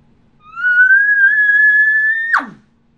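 An elk bugle imitated on a latex mouth call without the tube: one whistled note rises and holds high and steady for about two seconds, then drops off sharply into a breathy puff of air at the end.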